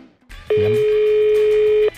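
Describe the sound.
A telephone ringing with an incoming call, heard as one sustained, steady electronic tone that starts and stops abruptly and lasts well over a second.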